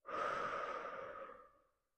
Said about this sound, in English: Breathe in through the nose and exhale out of the mouth.